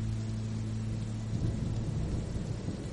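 Heavy rain pours down in a dense, steady hiss that stays even in loudness throughout, with a deep low rumble running underneath.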